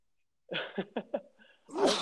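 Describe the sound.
A single sneeze bursts out as a short, breathy, noisy blast near the end, preceded by a few brief, faint vocal sounds in an otherwise quiet moment.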